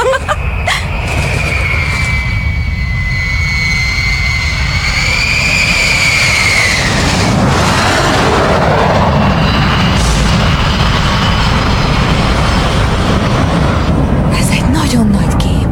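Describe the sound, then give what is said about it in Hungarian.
An American bomber plane flying overhead gives a loud, continuous engine roar throughout. A high whine shifts and dips midway through the pass. “Amerikai bombázó. Egy bombázó? Igen, harci gép. Talán a csatatérre tart?”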